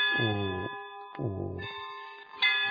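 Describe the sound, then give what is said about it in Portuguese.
Church bells ring out in a few heavy strikes, each opening with a deep booming clang over a steady, sustained metallic hum that carries on between the strikes. “Vou fazer uma pequena parada na gravação para que os sinos possam bater com calma.”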